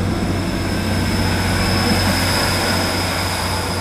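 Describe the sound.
A noisy train passing makes a loud, steady rumbling roar that holds at an even level throughout, with no voices.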